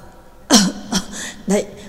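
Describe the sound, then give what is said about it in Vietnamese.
A few harsh coughs, voiced as a man coughs and chokes on thick dust after being thrown to the ground. The bursts are short, uneven and spluttering. “Trắc Mộc Cường Ba hất tay xua bụi chung quanh mình, vừa ho sặc sụa vừa nói”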